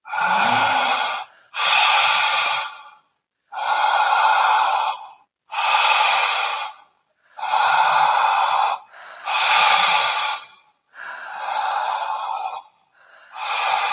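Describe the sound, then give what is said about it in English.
People take deep breaths together during a guided breathing exercise, pulling air in and letting it rush out. A series of loud, breathy inhales and exhales repeats in a steady rhythm with short pauses between them. “And finally, you pull on the inhale, but just let go on the exhale. Let your breath rush out of your body. Now let's take five breaths together.”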